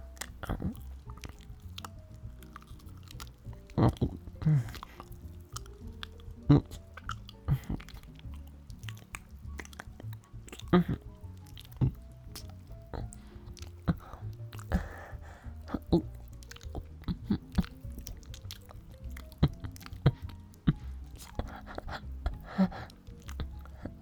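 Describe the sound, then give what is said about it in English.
Wet licking and mouth sounds from someone tasting something tasty, a long run of many irregular soft smacks and slurps at a fairly low level. “that looks very tasty. Do I just go in with my tongue or lick it?”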